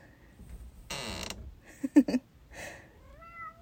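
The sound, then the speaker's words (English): A door hinge that needs lubrication creaks in one drawn-out, grating sweep. A cat follows with a few short meows. “I know this door needs some WD-40, huh?”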